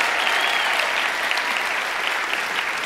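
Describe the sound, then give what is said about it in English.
A church audience applauding: loud, dense, steady clapping from many hands, continuing without a break. “do me a favor, put your hands together and let's just welcome our family to church. But do it really big.”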